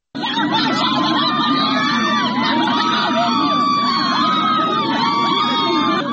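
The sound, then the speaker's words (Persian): Villagers from Chenar Mahmoudi protest outside the Lordegan governor's office in Chaharmahal and Bakhtiari province, objecting to the health ministry's role. A loud crowd shouts and chants continuously, with many raised voices overlapping. “این صدای معترضان است که در روستای چنار محمودی، یکی از روستاهای شهرستان لردگان در استان چهارمحال و بختیاری، در مقابل فرمانداری لردگان تجمع کردند.”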